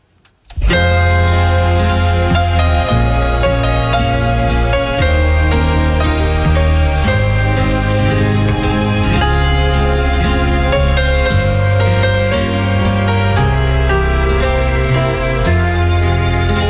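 The closing theme song of a TV series starts after a brief silence and plays loud and continuous, with a steady beat, changing bass notes and a bright melody on top.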